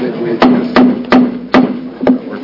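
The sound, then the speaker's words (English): Sharp wooden knocks of a gavel struck to open a meeting. Five distinct strikes land at a fairly even pace, with faint talk in the background. “Do we have to stand up? No, we don't have to stand. I know three hammers usually means stand.”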